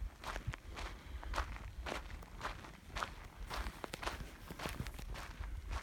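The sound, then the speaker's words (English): Footsteps of someone walking along a road: a steady, even rhythm of faint crunching steps that continues throughout. “Walking the road just under a mile from the camp.”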